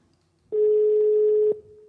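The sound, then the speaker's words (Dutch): A telephone call ringing out, heard as a steady single-pitched ringback tone that holds for about a second, stops, then starts again at the very end. “Dan hoor je toch nu dat we hier aan het bellen zijn.”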